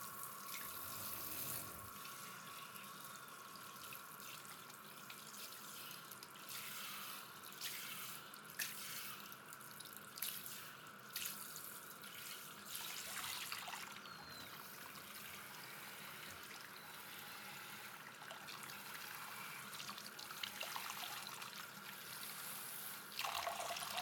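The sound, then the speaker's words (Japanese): Water running steadily at a salon shampoo basin as it rinses a treatment out of hair. The flow is soft and even, a faint hiss that lasts throughout. “トリートメントを流します。”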